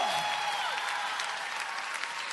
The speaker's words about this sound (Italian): un applauso forte al Re